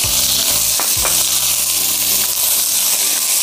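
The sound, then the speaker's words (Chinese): Garlic chives stir-frying in hot oil give a loud, steady sizzle and hiss, with a few low thumps and stirring noises in the first second. “油热以后炒韭菜，”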